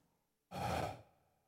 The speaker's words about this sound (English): Down a dark passage. Echoing, reverberating are the breaths of Smith